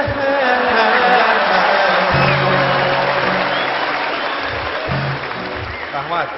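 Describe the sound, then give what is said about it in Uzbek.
Audience applause, a dense, sustained clatter of many hands that fades slightly over its length, with voices audible through it. “Bo'ldi qarsak.”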